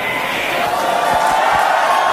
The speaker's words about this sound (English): Falcon Heavy is in startup. Some clapping in the control room.